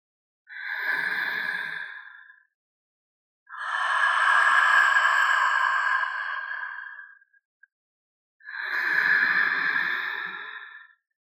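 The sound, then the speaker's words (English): Slow breathing in and out through the mouth during a guided body-awareness exercise: three long, airy, soft breaths, the middle one longest, each separated by silence. “You are inhaling and exhaling through the mouth to really open the felt sense in the body.”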